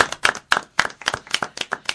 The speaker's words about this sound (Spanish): Un aplauso para Joaquín.